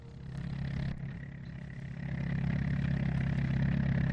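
A pickup truck engine rumbles with a low, throaty drone that holds steady at first, then grows somewhat louder and fuller in the second half as the vehicle pulls away.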